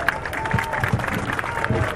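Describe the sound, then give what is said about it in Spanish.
Applause from a crowd at a teachers' march rally in Chiapa de Corzo, Chiapas: a dense, steady wash of many hands clapping at even loudness, with murmuring crowd noise mixed in. “Recibamos con fuertes aplausos, compañeros.”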